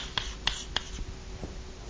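Writing on a board during a math lecture: a few short, sharp taps and scratches at an uneven pace, faint and without speech.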